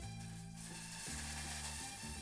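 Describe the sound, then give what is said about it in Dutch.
Vegetables sizzle in pans on a stove, a continuous, faint frying hiss that holds steady throughout. “Ze snijdt de groenten en roert in de sissende pannen op het vuur.”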